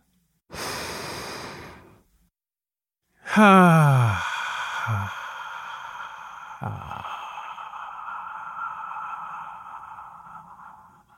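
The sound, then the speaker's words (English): A deep breath is drawn as a single long, noisy rush of air lasting about a second and a half, followed after a pause by a loud ringing tone that slowly fades to the end. “So, let's get started, shall we? Let's take a deep breath.”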